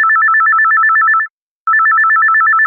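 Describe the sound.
A telephone rings for a caller on a radio phone-in with two loud electronic rings, each a rapidly warbling trill, separated by a brief silent pause.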